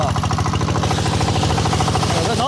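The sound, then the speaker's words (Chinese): An engine-driven water pump pumps seawater into a hose with a loud, steady, rapid pulsing chug and an even mechanical throb that does not let up. “一切准备就绪，发动机启动后，抽水机将海水抽进水管，然后又在海里将泥沙冲洗干净。”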